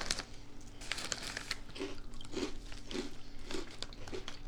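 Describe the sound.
Someone chews a crunchy curry-flavoured snack, making faint, rhythmic crisp crunches that repeat at an even pace throughout, with no talking.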